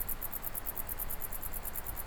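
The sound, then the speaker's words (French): Crickets and grasshoppers chirp in a high mountain valley on a windy day with a south wind. Their rapid, regular high-pitched pulses run steadily throughout over a low, constant wind rumble. “Ambiance venteuse, vent de sud, criquet, sauterelle.”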